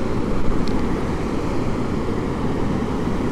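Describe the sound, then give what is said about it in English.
Wind blows outdoors during a walk, a steady, unbroken rumbling roar that keeps an even loudness throughout with no voices. “I seem to be plagued by winds on this walk.”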